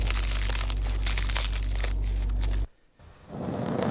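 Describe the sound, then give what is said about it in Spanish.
Crusty bread crackles and crunches as it is cut, a dense run of sharp crackling over a low steady hum that stops briefly before softer crunching resumes. “Es ese sonido del pan crujiendo, el sonido de cómo cortamos el pan, ya sea a la hora del desayuno, a la hora de la comida o incluso de la cena”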